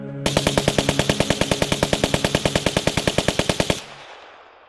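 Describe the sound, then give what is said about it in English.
Automatic gunfire of soldiers shooting in a stage play: a loud, even, rapid burst of many shots lasting about three and a half seconds, then cutting off into a fading ringing tail. “Go bid the soldiers shoot!”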